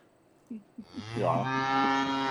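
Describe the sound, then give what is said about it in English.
Cattle on a farm: a few short, low grunting calls lead into one long, loud, sustained moo with rich harmonics that holds steady to the end. “I'm just here on the farm.”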